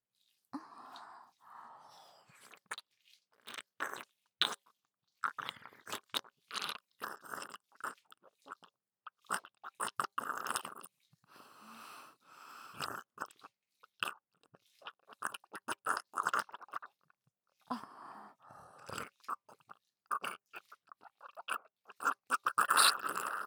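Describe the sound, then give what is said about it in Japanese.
Close-up chewing of food with many wet clicks and crunchy bites in an irregular rhythm, fairly faint and nearly continuous with short pauses, and no talking. “それでは耳元でいただきます。”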